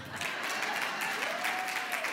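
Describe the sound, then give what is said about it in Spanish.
Brief applause, a dense and even patter of many hands clapping that holds at a steady loudness for about two seconds. “Qué aplauso más feo ese.”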